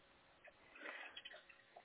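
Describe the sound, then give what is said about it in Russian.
Faint dripping and trickling of water leaking steadily from ceilings and light fittings in a flooded building, with a few soft drops over a low, continuous wash. “у нас прям с ламп течет с потолков, и не прекращая.”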